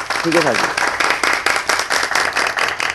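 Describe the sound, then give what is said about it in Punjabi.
Applause for two people: a brief voice at the start, then many claps in quick, rhythmic bursts at a fairly loud level. “ਸੋ ਵੈਸੇ ਮੈਂ ਇਕੱਲੇ ਆਪਣੇ ਲਈ ਤਾਲੀਆਂ ਨਹੀਂ ਮਰਵਾਊਂਗਾ, ਆਪਣਾ ਦੋਵਾਂ ਵਾਸਤੇ ਤਾੜੀਆਂ।”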